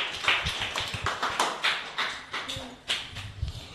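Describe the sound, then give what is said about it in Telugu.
Audience clapping for school children after their performance on a children's programme, a brisk run of many sharp hand claps with a steady, uneven patter throughout. “అందరు claps కొట్టున్నానా మీ పిల్లలకి?”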